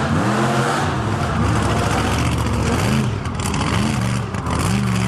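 Engine of a buggy being driven, a loud continuous motor drone whose pitch repeatedly rises and falls as it revs, with no talk.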